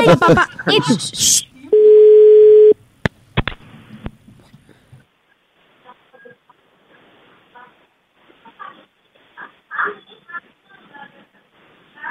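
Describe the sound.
An outgoing call's ringback tone: a single steady, buzzy electronic tone lasting about a second follows loud talk. Faint scattered voices continue after it.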